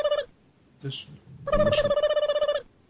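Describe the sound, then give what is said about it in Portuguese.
An electronic telephone ringtone signals an incoming call: a short burst of ringing, then a longer, rapidly pulsing warbling trill at a steady high pitch. A voice briefly overlaps it. “Temos aqui o gadget a telefonar, vamos atender.”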